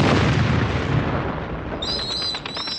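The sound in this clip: A bomb explosion sound effect, heard as a loud, sustained rumbling roar that fills the whole clip, with thin, high whistling tones joining near the end.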